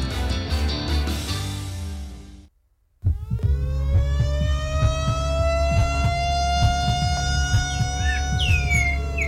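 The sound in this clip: A siren winds up after a brief gap and holds a loud, steady wail for several seconds, following a dense tonal passage at the start.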